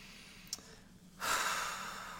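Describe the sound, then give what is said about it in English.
A deep breath taken alone: a faint click, a short pause, then a long, airy rush of breath that swells quickly and slowly tapers off, soft overall. “Taking a deep breath.”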